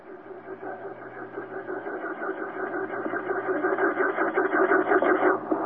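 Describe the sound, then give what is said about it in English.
A voice imitates the soft sound of a vehicle slowly ascending, a steady, low, buzzing hum with a fluttering texture that gradually swells louder before cutting off. “the sound appeared to go with something like that as the vehicle started to ascend very slowly.”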